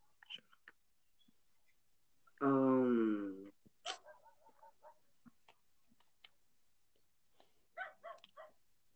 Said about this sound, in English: Oh, dumb dogs, they don't shut up.